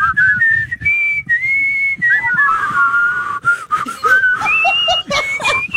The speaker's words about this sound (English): I think we've had enough whistling.